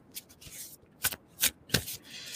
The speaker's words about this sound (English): So I'm going to pull a card from this deck for you guys.